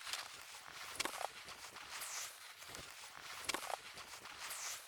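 Footsteps crunch along a snowy mountain trail in a steady walking rhythm of many soft, hissing steps, faint throughout with no voices.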